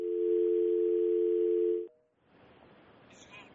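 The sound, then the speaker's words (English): Telephone dial tone after a caller's line dropped: a loud, steady hum holds for almost two seconds, cuts off, then gives way to a brief blip and low background noise. “I think we've just lost the caller right there”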